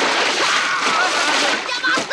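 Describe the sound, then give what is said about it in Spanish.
Water splashing and churning as a person is pushed under the water: a loud, dense, continuous sloshing noise that lasts the whole clip. “Teddy empuja a Vern y lo hunde en el agua.”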